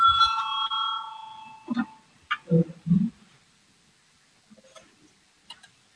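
Bell rung in a parliamentary chamber to call a vote: a bright, sustained ringing tone for about a second, followed by a few scattered knocks and clicks amid near silence.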